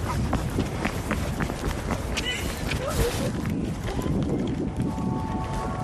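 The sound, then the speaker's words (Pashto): Quick running footsteps across an open field, rapid and steady, set within a dense, hissing, wind-like background noise that stays loud throughout. “اوزي اندرې او مرهیتا چټک ګامونه اخلي”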